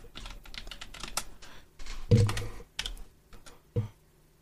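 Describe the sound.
Typing on a computer keyboard, with many irregular clacking keystrokes in uneven bursts and a couple of heavier key presses standing out.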